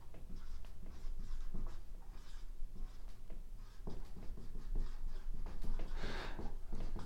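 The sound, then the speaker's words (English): Handwriting with a pen as someone writes out notes, the lines running slanted. Many short, soft scratching strokes come in quick irregular bursts, quiet and without talk. “Sorry, my writing's getting a little slanted there.”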